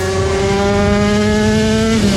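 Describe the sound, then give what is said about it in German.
Classic old motorcycles racing at a classic Grand Prix in Schleswig-Holstein: a loud, steady, buzzing engine drone whose pitch sags slightly toward the end. “Das ist der Sound vom Shaggerotter Classic Grand Prix in Schleswig-Holstein am 1. Juli-Wochenende. Klassische, alte, richtig geile Motorräder”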